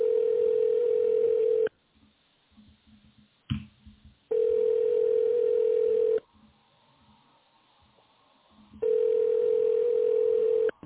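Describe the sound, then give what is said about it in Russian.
Telephone ringback tone on an outgoing call not yet answered: three long, steady beeps at the same pitch separated by gaps of near silence, with a brief clicking noise in one gap. “Абонент еще не ответил.”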